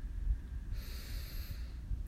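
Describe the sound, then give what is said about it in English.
A slow, airy inhale during a guided toning meditation, faint and soft, lasting about a second over a low background rumble. “Breathe in.”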